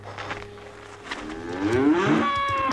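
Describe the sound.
A calf, now standing on her feet, gives a single drawn-out moo. It starts low and rises in pitch, then holds a steadier, higher tone to the end, heard alone over faint background noise.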